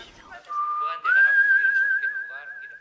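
Whistling, as a person whistles a clear, steady note that steps up to a higher pitch after about a second and holds there, fairly loud, until the end.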